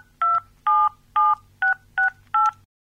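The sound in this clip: A telephone number being dialed with six touch-tone beeps, each a short, bright dual-pitched tone separated by brief, even gaps, heard alone over a faint low hum.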